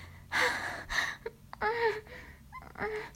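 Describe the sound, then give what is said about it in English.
Strained, panting breaths: several sharp gasping inhales and exhales with faint voiced whimpers, coming in uneven bursts. “I can hear you straining and panting”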